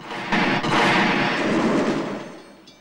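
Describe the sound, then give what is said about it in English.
A series of explosions from a train wreck in a ravine in a film. Deep rumbling blasts swell, hold as a heavy roar, then fade away. “The wreck causes a series of explosions that shoot high into the air as the area is engulfed by smoke.”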